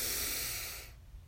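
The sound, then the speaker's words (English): A person takes a deep inhale during a guided breathing exercise, heard as a steady airy hiss that holds for most of a second and then cuts off into near silence. “So let's breathe in together.”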